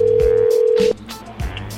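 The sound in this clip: A telephone dial tone hums steadily for just under a second and then cuts off, followed by a few faint clicks and rustles, as a prank call to a 7-Eleven convenience store is placed.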